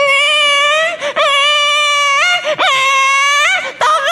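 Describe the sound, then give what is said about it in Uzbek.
A baby cries loudly in long, high-pitched wails, with several sustained cries broken by brief catches of breath. No other voices are heard. “Oradan 1 kun o'tdi. Chaqaloq yig'layapti, qarang.”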